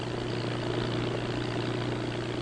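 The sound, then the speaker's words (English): An airboat engine driving an airplane propeller produces a loud, continuous drone with a low throbbing hum and a broad roaring rush, steady and unchanging throughout. “Driven by an airplane propeller, the boat cannot foul in the weeds. It travels 40 miles per hour in 1 foot of water as smoothly as over glass.”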